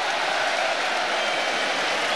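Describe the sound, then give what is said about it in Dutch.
Stadium crowd applauding as a substituted Feyenoord player leaves the pitch during a football match, a dense, steady wash of clapping and crowd noise that holds at an even level throughout. “Het applaus is er. Voor Targaline, de invaller.”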